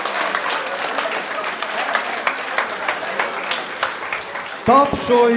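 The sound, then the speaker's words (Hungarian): Steady audience applause, a continuous patter of many hands at moderate loudness, rolls on for several seconds before a man's voice cuts in and starts talking over its tail. “Tapsoljuk meg!”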